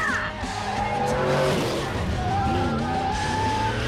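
A cartoon car roars through a chase in Las Vegas, its engine loud and continuous, with squealing tires and skidding sliding through the middle of the stretch.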